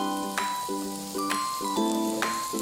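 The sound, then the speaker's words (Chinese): Eggs stir-fried in a pan over fairly high heat sizzle steadily, broken by three brief, sharp bursts at even intervals as the mixture is turned. “随后放入鸡蛋，继续翻炒，这个时候火稍微大一点。”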